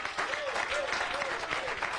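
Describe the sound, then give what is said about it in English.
A church audience claps together during a service, producing a dense, even patter of many hands that holds steady throughout while a voice carries faintly over the clapping. “Let's give the Lord a big hand clap for tonight.”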